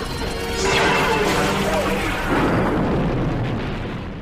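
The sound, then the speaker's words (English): Sci-fi weapon test firing in a test bay: a loud, sustained roaring blast with a crashing, explosive texture that swells twice and then slowly fades. “We're going to put you in the test bay. The major weapons test is imminent. Test bay 94. You may fire when ready.”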